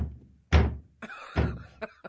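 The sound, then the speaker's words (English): A voice imitates a big dog bumping against a bedroom door at night, making a few dull, low thumps with short pauses between them that fade toward the end. “the bigger dog will come and he'll bump on the door. You can hear this noise when you're in bed. He'll kind of bump on the door.”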